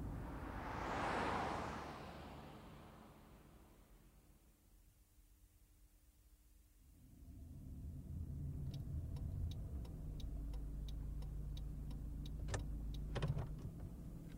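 A car is driving. A soft whoosh fades into a quiet stretch, then a steady low engine and road hum sets in, with faint regular ticking over it.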